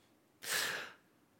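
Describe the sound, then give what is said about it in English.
A man drawing a sharp, deep breath in for the first time, a single breathy gasp lasting about half a second, fairly soft against a quiet background. “He breathes in for the first time.”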